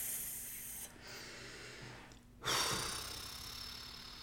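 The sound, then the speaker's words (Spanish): A person takes a deep breath during a guided breathing pause: a long, soft, airy inhale, then a stronger breathy release, faint and with no talking. “vamos a respirar otra vez.”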